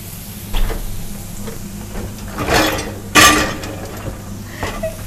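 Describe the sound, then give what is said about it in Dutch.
Meatballs are dropped into a frying pan without butter, giving a few clattering knocks and clinks, with two louder thuds in the middle, over a faint steady hum. “Ik ga deze ballen in de pan doen.”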